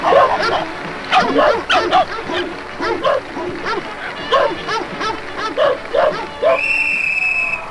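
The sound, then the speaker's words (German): Dogs yelp and howl in rhythmic, pitched bursts as a circus singing-dog act, with many short harmonic cries in a steady pattern and a sustained high tone near the end. “der Zirkus führt Ihnen jetzt eine unvergleichliche Nummer vor. Eine Weltnummer. Don Carlis singende Hunde.”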